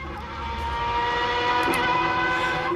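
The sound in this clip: A piston engine runs steadily, making a loud, continuous drone rich in harmonics that holds an even level throughout, with no voices.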